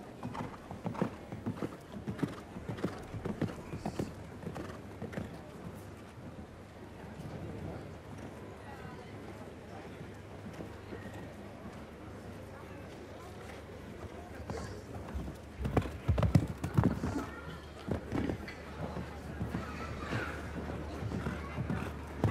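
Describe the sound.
Hooves of a horse galloping during a show-jumping round, a fairly quiet, rhythmic thudding that runs throughout beneath continuous talking.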